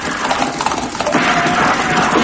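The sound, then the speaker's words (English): Hooves clip-clopping as a band of men rides into town on horseback, with a busy, continuous run of many quick hoofbeats throughout. “That night, El Bisto and his men rode into town.”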